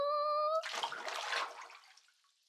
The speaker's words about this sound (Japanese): このお湯を張った洗面器に洗剤を入れて、じゃあ入るよ。